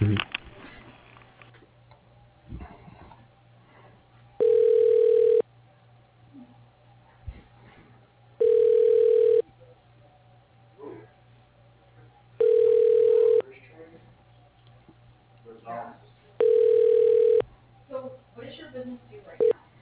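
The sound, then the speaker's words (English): Telephone line tone as a call is transferred to voicemail: four long, even beeps repeat at a steady interval, separated by faint line hiss and scattered clicks on a narrow phone-line sound. “I can transfer you over to his voicemail if you like.”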